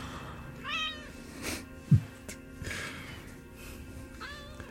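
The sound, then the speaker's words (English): A house cat meows twice, short, faint rising-and-falling cries near the start and end, over low background noise with a dull knock in between. “Oh, your cat's odd. Dead odd, this cat. Both of your cats are dead odd.”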